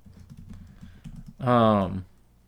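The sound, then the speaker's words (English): Quick, light clicks of typing on a computer keyboard patter unevenly for about a second, followed by a brief spoken voice. “You typed in PC gay.”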